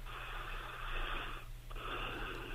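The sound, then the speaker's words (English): A person's deep breath, heard as faint, airy, wheezy rushing in two long stretches split by a brief pause. “So let me just take a breath.”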